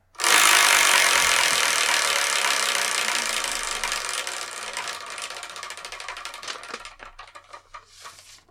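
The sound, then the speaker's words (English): A prize wheel being spun gives a long run of ratcheting clicks, rapid and dense at first, then gradually spacing out as the wheel slows before stopping. “And I'm going to spin this Wheel of Manga. Whatever number it lands on, it's reviewing the next episode of the Spirekin. So let's spin it and see what we're going to review.”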